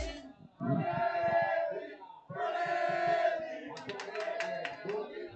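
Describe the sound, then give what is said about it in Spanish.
Football fans of the Peña Atlética supporters' club of Torrejón de Ardoz chant for Atlético de Madrid during a goalless match. Two loud sung phrases in unison are followed by sharp rhythmic clapping. “La afición, ahí está. Ojo a la afición, escuchen la afición que habla aquí la Peña Atlética.”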